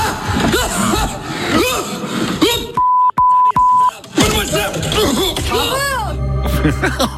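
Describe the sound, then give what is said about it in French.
Electronic beeps: a steady mid-pitched tone is broken into a few short bleeps, cut into the middle of lively talk, with voices before and after. “On a été malin, hein? On a bipé.”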